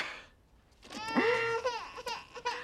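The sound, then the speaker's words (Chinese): A baby cries, starting with one drawn-out, rising wail and breaking into several short sobbing bursts after a faint pause. “去看着孩子，又哭了。”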